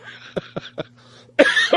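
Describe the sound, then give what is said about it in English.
A short series of coughs: three quick, sharp bursts followed by a longer, louder, rougher fit of coughing, with no talk over it. “I knew that was going to make me laugh and cough at the same time again.”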